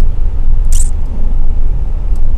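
A moving car gives off a steady, loud low rumble of engine and road noise throughout, broken only by one brief high squeak early on, with no talking.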